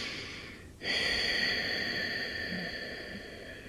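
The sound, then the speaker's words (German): Snorkel-style breathing through a partly closed throat: a soft rush of air, then a brief pause, then a louder, steady rasping breath that is long-drawn and slowly fades. “Und das ist die Schnorchelatmung.”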